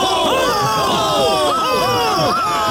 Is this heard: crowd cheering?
yes